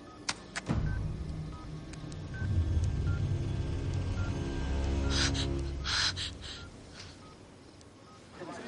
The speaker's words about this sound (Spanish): Sus dedos teclean un número.